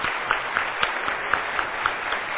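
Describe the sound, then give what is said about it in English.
Audience applause in an auditorium for standing military veterans: dense, sustained clapping from a large crowd with an even, steady texture and no break. “Round of applause.”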